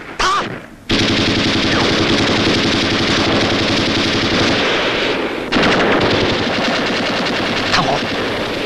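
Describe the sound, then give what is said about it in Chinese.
Loud machine gun fire in a night battle: after a brief opening sound, rapid shots pour out in one dense, continuous stream, dip briefly past the midpoint, then resume just as fiercely. “机枪！”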